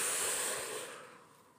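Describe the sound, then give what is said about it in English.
A single soft exhale, a faint airy hiss that tapers off over about a second and a half, with no talk. “Inhale. And exhale.”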